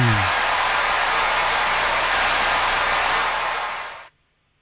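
An audience applauds as a guest, a former baseball third base coach, is welcomed on stage. Dense, loud clapping holds steady for about four seconds and then stops abruptly.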